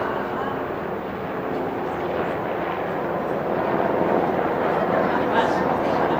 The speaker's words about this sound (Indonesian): Helikopter.